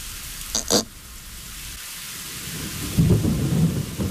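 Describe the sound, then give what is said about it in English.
Steady hissing rain with a low, rolling rumble of thunder that swells in the second half, after a couple of brief, sharper bursts early on. “When the rain began, Pooh was asleep. It rained and it rained and it rained”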